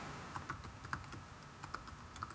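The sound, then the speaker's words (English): Faint, irregular clicking of a computer keyboard as a search is typed in, with keystrokes tapping quietly in uneven bursts. “Just type in Terminator cop.”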